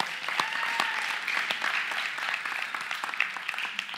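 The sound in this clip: An audience at a church gathering applauds to honor a long-serving member, a steady patter of many hands clapping at a fairly soft level throughout.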